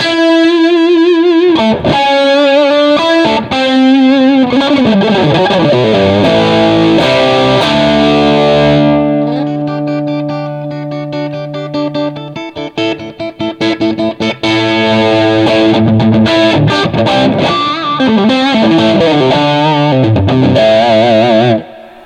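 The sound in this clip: Electric guitar through an amp with its big center boost button engaged, giving a classic rock tone: thick, distorted chords and sustained ringing notes play continuously and loudly, with no voices.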